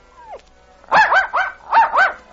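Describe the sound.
A little dog barks frantically: a brief falling whine comes first, then five quick, high, yappy barks in two close bursts.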